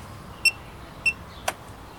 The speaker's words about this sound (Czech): Takže přiložíme kartu.